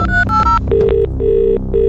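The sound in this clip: A telephone rings with an electronic ringtone: a quick run of higher warbling tones, then three loud, evenly spaced lower beeps, with no voices.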